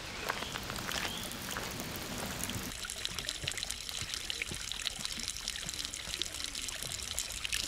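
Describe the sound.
Small, young river near its source, on its way to the Rhine, trickling and splashing as a continuous, fairly faint flow of water with no voices.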